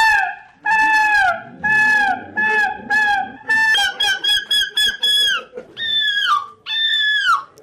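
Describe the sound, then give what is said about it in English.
People imitate screeching seagulls at a seagull-screeching championship held in a Belgian café. Loud, nasal squawks come in a series of separate cries, then a rapid burst of shorter calls, then two long wailing screeches. No real birds are heard. “But don't be fooled. Those aren't seabirds. They're humans doing their best turn.”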